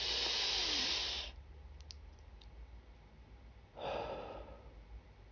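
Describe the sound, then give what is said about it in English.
Two deep breaths come as airy, hissing rushes of air, the first long and loud, the second shorter and softer, with a few faint clicks in the quiet gap between them. “let's just take some deep breath”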